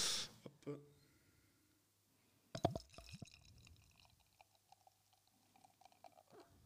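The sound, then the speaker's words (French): Liquid is poured from a glass bottle, a short gurgling splash followed by a quieter trickling fill, faint, with voices nearby. “Elle reste bien à la bouteille. Est-ce que tu sais juste un tout petit peu ? Merci beaucoup. La tienne. Sortez, on fait des bruits de bouteilles de verre.”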